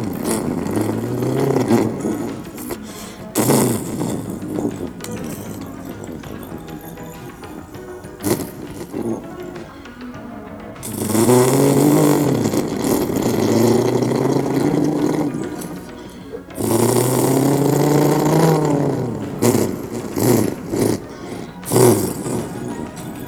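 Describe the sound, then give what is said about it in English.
A car accelerating hard: a roaring engine surges through repeated revs, its pitch climbing and bending in waves, with louder bursts separated by brief lulls. “I accelerated big time.”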